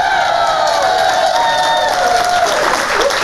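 A New York studio audience for Fox News Saturday Night cheers and applauds loudly, with high whoops and shouts rising over sustained clapping.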